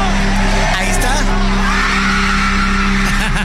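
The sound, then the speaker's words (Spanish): Concert audience cheering and whooping in reaction to a moment at the show, a dense, loud, continuous roar of crowd noise with scattered shouts rising out of it throughout. “Pero miren, esta fue la reacción completa del público para que escuchen en pleno concierto.”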